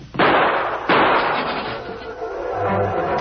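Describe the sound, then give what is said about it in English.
Two loud gunshots ring out in a radio drama, sharp blasts about three-quarters of a second apart, each trailing off into a long, noisy wash. “Look out, Patsy. He's going for a gun. I'm hit, Nick. I'm hit.”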